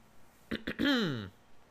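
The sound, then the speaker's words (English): A man clears his throat. Two brief catches come first, then a longer raspy rumble that slides downward in pitch and fades out. “As I constantly have to clear my fucking throat.”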